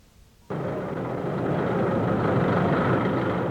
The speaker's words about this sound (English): Behind the wheel of that bulldozer is Mayor Washington, wearing a bright red hard hat, officially starting construction on the center.